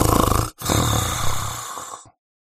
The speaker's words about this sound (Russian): Ответил тот богатырским храпом.